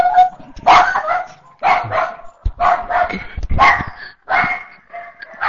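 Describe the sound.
A dog barks loudly in several quick bursts of sharp barks separated by brief pauses, with no voices over it.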